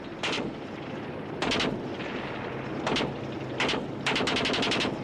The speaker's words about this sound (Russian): Танки и пехота продолжают приближаться, не сбавляя скорости. Выпущенные снаряды ложатся за окопами.